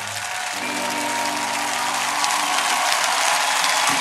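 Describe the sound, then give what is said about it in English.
An audience giving a standing ovation: loud, dense applause that holds steady throughout. “Give us a standing ovation and your sympathy.”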